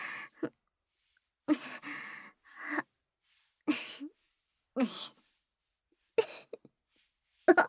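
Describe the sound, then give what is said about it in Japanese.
Several short bursts of someone sniffing, drawing breath in through the nose again and again, with sharp breathy onsets separated by silent pauses. “何度も、何度も、鼻から、息、吸ってみ。”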